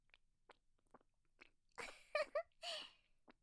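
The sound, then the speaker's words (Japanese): Faint, wet licking on sweaty skin: soft, scattered clicks and smacks, then a few louder, moist slurping bursts close together. “返事もできないくらい夢中なんだ。ほら、いい子だからそろそろ舐めるのやめてね。”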